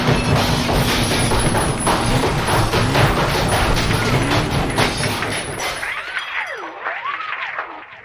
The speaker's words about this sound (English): Well, let's get the rock crusher and put it to the test.